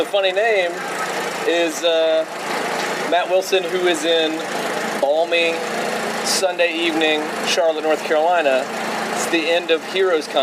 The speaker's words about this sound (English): The sound you likely hear in the background right now, the churning and sputtering. Those are generators powering food trucks.